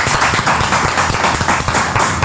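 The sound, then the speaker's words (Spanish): Crowd applause for participating radio stations: loud, dense clapping with busy overlapping hand taps, steady for a couple of seconds. “Un aplauso para estas radios también.”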